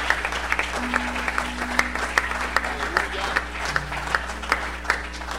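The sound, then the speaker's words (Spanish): A church audience applauds during a Spanish-language worship service, with steady, fairly even clapping that continues throughout and voices mixed in. “¿Cuántos le pueden dar un aplauso fuerte al Señor?”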